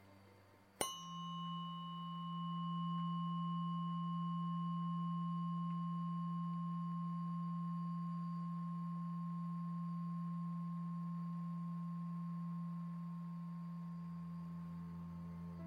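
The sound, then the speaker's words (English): A low-tuned tuning fork is struck once with a sharp tap, then rings as a steady, pure, low hum that holds for many seconds and fades only slightly toward the end. “The first frequency is 174 Hz, and it sounds like this.”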